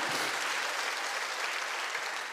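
A church audience claps in steady, dense applause, with many hands blending into a continuous wash of sound. The clapping is fairly faint and comes with no talk.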